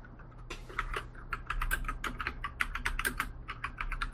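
Rapid computer keyboard typing while writing a note: many quick, light keystrokes in an uneven rhythm, faint and with no voices.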